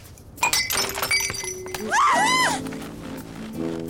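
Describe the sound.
A drinking glass smashes with a sharp crash, then bright ringing shards tinkle and clink for a moment before a voice follows over a low background.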